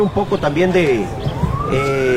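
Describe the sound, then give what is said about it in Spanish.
Sirens sound during the awaited arrival of Costa Rica's president at a high-performance sports center. A sustained wailing tone climbs slowly in pitch beneath continuous speech. “escucho sirenas al fondo”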